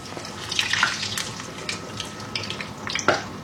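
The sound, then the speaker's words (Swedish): Food sizzles as it is deep-fried in oil, giving a steady bright hiss with scattered crackles and pops throughout, without talk. “Så har du olja där. Precis. Så ska väl de friteras. Ska vi fritera dem lite grann.”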